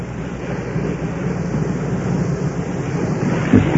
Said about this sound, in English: Well, that's the sound of the slow rolling waves. It's a very odd looking body of water. The slow rolling waves of the Bering Sea.